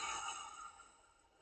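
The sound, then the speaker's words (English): A deep, relaxed breath released like a gentle sigh during a guided relaxation exercise; soft, airy and steady, it slowly fades away over about a second and a half. “let's start with a lovely deep breath. So, breathing in right deep into your stomach and release.”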